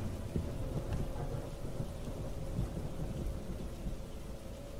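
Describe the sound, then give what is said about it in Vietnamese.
Steady rain at night, a dense, continuous hiss with a low rumbling undertone that stays even throughout, with no voices. “trời vẫn còn mưa”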